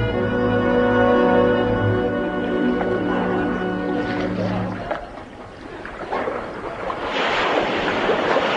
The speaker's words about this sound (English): Yes, I paddled my zinc bath towards my rightful heritage. After a mere 13 months, I entered the harbor of New York and pulled into the quay.